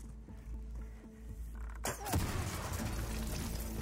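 An explosion in a video game bursts out suddenly and loudly partway through, after steady game sound, then gives way to a sustained rushing, crackling roar.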